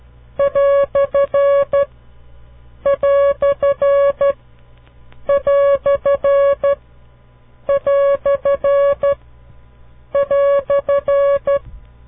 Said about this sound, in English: This is the sound of the quotation mark.